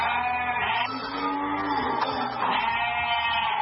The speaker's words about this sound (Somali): Gegada xoolaha ee jibuuti waxay ku taallaa duleedka magaalada jibuuti, gaar ahaan degmada balbala.